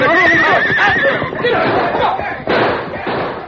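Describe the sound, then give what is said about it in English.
A horse whinnies loudly in a Western drama scene as one horse is driven crashing into another. The shrill, wavering call comes first, followed by heavy thuds and a general commotion. “A hidden signal from the Lone Ranger sent Silver crashing against Tompkins' horse, forcing the animal back against the others.”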